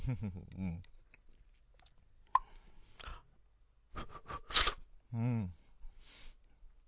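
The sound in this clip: Quiet chewing and crunching as someone snacks on food: soft clicky bites in a few clustered bursts, set between stretches of talk.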